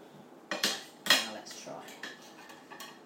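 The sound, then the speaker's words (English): A knife cuts across cheese-topped food on a plate, making a few sharp metal-on-crockery clinks and short scrapes. The clicks are quiet, with a couple of stronger taps near the start. “Cut across it with a knife. Cross it that way because I've got cheese on the top, you see.”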